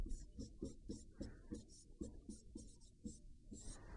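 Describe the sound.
Handwriting as a calculus derivation is written out by hand: many short, scratchy strokes in a quick, uneven rhythm, with soft rubbing between them.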